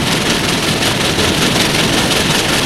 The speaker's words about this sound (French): Enfin, le train arrive gare de Lyon à Paris.